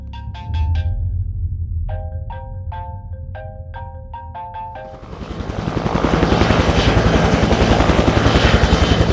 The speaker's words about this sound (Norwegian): kommer et eh, helikopter fra Forsvaret.